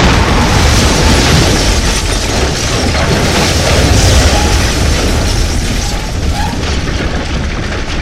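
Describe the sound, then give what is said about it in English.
Explosion of a stone chamber, with volcanic rock flung in every direction: loud, dense roaring and rumbling that holds steady across the whole clip without a single sharp onset. “Just as I think my sanity can't take any more, the whole stone chamber around us explodes.”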